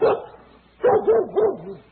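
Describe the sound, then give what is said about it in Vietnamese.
A lean Vietnamese 'chó cò' dog barking as it rushes out of a house at a visitor: one short bark, a brief pause, then a quick string of yelping barks with a wavering pitch that fade out. “con chó cò đã từ trong phóng ra, sủa rang lại chồm lên người anh”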